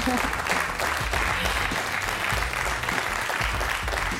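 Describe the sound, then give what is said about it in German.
Loud applause from a full studio audience at a live event on commuting: dense, continuous clapping that stays strong and even throughout. “Sie dürfen sogar applaudieren, denn unser Studio ist voll.”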